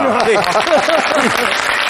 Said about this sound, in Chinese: 好，鼓掌啊！